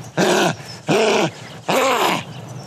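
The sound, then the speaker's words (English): A human voice imitates a dog's growl to mimic a car making a bad noise: three throaty, rasping growls, each swelling up and sagging back in pitch, separated by short pauses, loud and alone. “if your car's sounding like this and he does the dog noise, then he's like, come in to Repco.”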